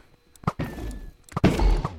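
Arrows shot from a bow at the Ender Dragon in the Minecraft video game land as soft, short thunks in two brief clusters separated by a pause.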